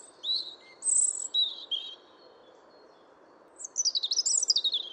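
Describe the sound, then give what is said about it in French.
A European robin singing in winter, two high, thin warbling phrases with quick trills separated by a pause, over a faint background hiss. “comme le rouge-gorge, qui chante encore beaucoup durant la saison hivernale”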